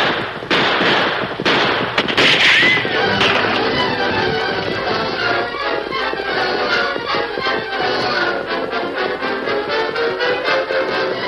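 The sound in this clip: Gunfire crackles as a sound effect in a Western drama ambush on horseback, with many sharp shots rattling continuously through a dense, loud wash of sound for the whole stretch.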